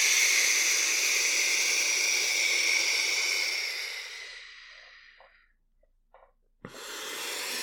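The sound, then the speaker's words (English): A big, deep breath taken as a stress-relief exercise, a long, loud breathy hiss that slowly fades to near silence, followed after a short pause by a click and the start of another strong breath. “And then you take a big deep breath in and then you breathe out.”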